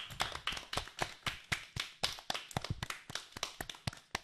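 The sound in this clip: A small audience applauds a student's speech with many sharp, separate hand claps in an uneven rhythm. The clapping is fairly faint and continues throughout.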